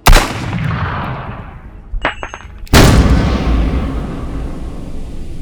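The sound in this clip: Gunfire in a Batman drama: two heavy blasts, the second louder, each trailing a long rumbling decay, with a few sharp mechanical clicks in between.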